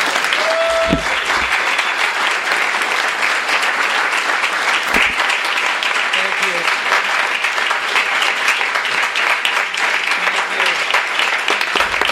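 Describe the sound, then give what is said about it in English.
Audience applause welcoming author Noah Hawley and Bob Odenkirk at a talk on Hawley's novel Before the Fall: dense, steady clapping that holds at an even, loud level for about twelve seconds. “So without further ado, please give a warm welcome to Noah Hawley and Bob Odenkirk.”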